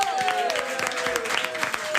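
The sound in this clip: Audience applause at a lively evening event, dense and continuous clapping throughout, with a sustained tone running above it.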